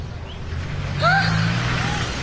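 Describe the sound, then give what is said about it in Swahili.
Low, steady engine rumble as a car pulls away, holding a deep hum for about two seconds, with a brief whistling tone in the middle. “Kadu anaondoa gari.”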